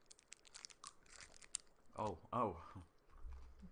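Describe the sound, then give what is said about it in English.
Faint crinkling of a wrapper, then two crunchy bites into a Kit Kat chocolate bar, followed by quieter chewing. “Yeah, it smells like a normal Kit Kat. It does. Okay, so let's try it.”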